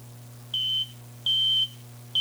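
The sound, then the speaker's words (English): High, steady-pitched beeps come from a spaceship cockpit console. Three fairly quiet tones sound about half a second apart, the last one cut off, over a constant low hum. “The console beeped, rescuing him.”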